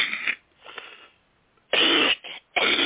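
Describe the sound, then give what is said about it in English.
Coughing from an unwell adult: three harsh, loud bursts close together near the end, after quieter breathy sounds at the start. “excuse me, as you can tell, I'm not quite up to par tonight. I'm going to be doing a lot of coughing.”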